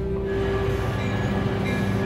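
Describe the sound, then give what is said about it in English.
A passenger train on a Canadian line pulling into Hinton station, giving a continuous low rumble with a steady tonal hum over it, even in loudness with no horn or sharp squeal. “The passenger train is pulling into Hinton.”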